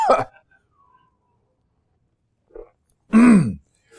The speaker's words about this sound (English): Excuse me. Oh, no. Just choked on my own spit. Not a good start. Pardon me.